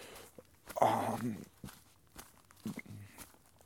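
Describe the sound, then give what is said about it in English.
Footsteps of someone walking in the dark while fast packing: several irregular crunching steps with light rustling between them. “Walking a little slower, obviously, because it's the dark.”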